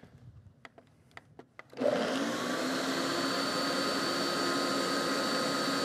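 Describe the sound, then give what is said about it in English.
A kitchen blender blending garlic and celery: a few light clicks, then the motor kicks on with a loud, steady whirring roar that runs unbroken to the end. “Let's get this blended up.”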